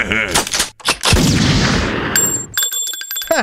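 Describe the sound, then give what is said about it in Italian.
A gunshot in a dramatic scene. Speech comes first, then a loud, sharp blast with a long, rumbling decay, followed by bright, ringing bell-like tones. “Mi hai sparato, infame.”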